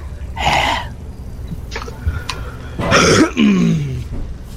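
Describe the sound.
Throat clearing and coughing from someone who has just swallowed peanut butter: a few harsh, raspy bursts with short gaps between them, the last ones longer and more strained.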